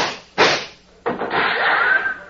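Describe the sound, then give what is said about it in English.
Gunshots in a Western confrontation, one shooting a gun out of a man's hand: two sharp, loud cracks about half a second apart, the second trailing into a sustained wash of noise. “Who done that? Who shot that gun out of my hand?”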